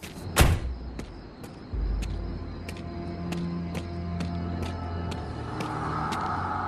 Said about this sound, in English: He climbs out of the truck and runs up to the opening in the fence.